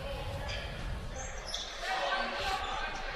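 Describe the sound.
A basketball dribbled on a court late in a close game. A steady, loud crowd roar nearly buries the bounces, and it swells toward the end.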